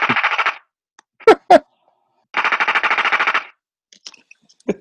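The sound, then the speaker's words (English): A soundboard effect of an Uzi machine gun firing: two rapid, thin-sounding bursts of many shots, separated by two loud single shots, followed by a few faint clicks. “Like a toy gun. All shots fired from the Uzi.”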